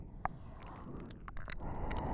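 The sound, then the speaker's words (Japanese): Wet mouth licking and smacking sounds imitate a tongue tasting the listener's ear. A sharp click comes near the start, followed by soft squishy smacks and faint rustling, with no talking. “あなたのお耳の味見をしてる。”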